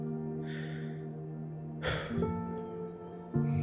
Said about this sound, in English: So I want you to take a moment and just breathe.